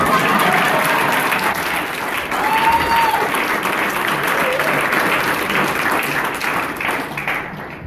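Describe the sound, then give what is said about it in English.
A church audience gives a warm round of applause to welcome a pastor. The clapping is loud and dense, with a few voices rising above it, and it eases slightly toward the end. “Ladies and gentlemen, would you give a very warm Go Christian Church welcome to Pastor Wimbai.”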